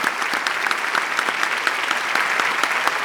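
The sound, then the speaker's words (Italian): Applause from an audience honouring a group of young performers at an Italian concert: dense, even clapping that stays loud and steady throughout, with no voices. “gentilmente a questo meraviglioso pubblico di fare a questi ragazzi un grande, grandissimo applauso. Bravi.”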